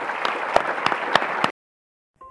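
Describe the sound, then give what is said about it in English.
Audience applause at the DFTB 19 live conference recording: dense, steady clapping with a few sharper claps stands alone, stops abruptly after about 1.5 seconds, then silence and a short electronic tone. “So would everyone join me in applauding these guys?”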